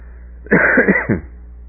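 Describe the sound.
A person coughs and clears their throat because of a sudden tickle in the throat, making a short cluster of rough, harsh bursts with no talking.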